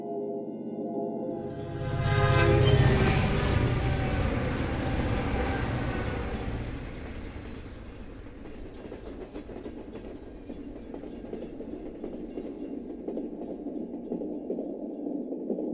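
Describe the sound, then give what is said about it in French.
A railway wagon rolls along with a steady low rumble and regular clickety-clack, swelling louder early on before settling into an even, quieter rattle that continues to the end. “au tac-tac régulier du wagon”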